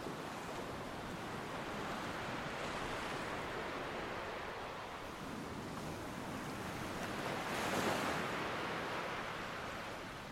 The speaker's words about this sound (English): As the spray from the waves is licked upwards by the prevailing wind,